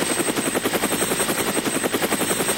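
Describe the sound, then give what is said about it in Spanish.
A helicopter flying nearby, its rotor beating in a fast, even, loud pulse with a steady high whine above it. “Sí, un helicóptero voló cerca, pero él no lo notó”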